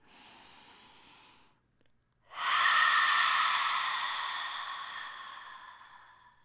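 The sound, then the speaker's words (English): During a guided meditation, a person takes a soft breath, pauses, then lets out a deep, loud, breathy exhale through the open mouth that slowly fades away. “Take a deep inhalation, open your mouth and exhale.”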